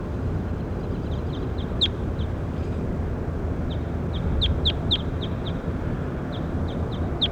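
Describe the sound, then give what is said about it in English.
High, sharp bird chirps from a bird being recorded, many quick notes in scattered clusters over a steady background hiss. “Start recording bird K2 again.”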